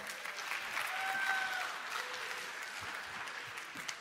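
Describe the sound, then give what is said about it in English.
Audience applause after a volunteer is sent back to his seat during a talk, a steady patter of clapping that stays fairly faint and even throughout. “Give it up for Jacob.”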